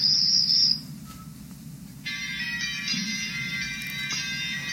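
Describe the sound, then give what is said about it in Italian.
Crickets chirping in high, buzzing trills: a short burst at the start, a quiet gap, then a continuous shimmering chorus that runs to the end, with no voices. “i grilli. Li senti?”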